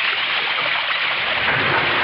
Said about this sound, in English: open the sluice gate. Let Esau join the others in the pool.